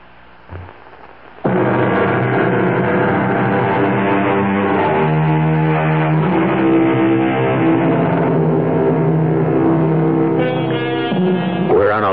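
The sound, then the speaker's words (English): A sleek white sports car drives alone on a late-night highway as a radio drama effect. Its engine starts abruptly into a loud, steady harmonic drone that shifts pitch a few times. “The hour is late, and the sleek white sports car whose hood ornament faces north is the only vehicle for miles”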